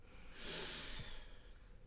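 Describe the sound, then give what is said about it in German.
One deep inhale drawn in through both mouth and nose during a calm guided breathing exercise, heard as a quiet, smooth airy hiss that swells and fades over roughly a second. “Und dann atme einmal ganz tief durch Mund und Nase ein.”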